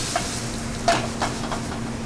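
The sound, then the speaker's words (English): Brussels sprouts still wet with a little water sizzle in a hot pan, a steady, even hiss with faint crackles throughout and no voices. “my Brussels sprouts are pretty much hot and there's a little bit of water still on them. Throw those in the pan.”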